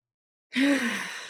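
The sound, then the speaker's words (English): A single deep breath that starts abruptly after silence. It is long and airy, with a soft voiced tone, and slowly fades while staying fairly strong. “I just want to take a moment to take a deep breath”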